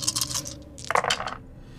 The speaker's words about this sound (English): I actually am already rolling with six dice.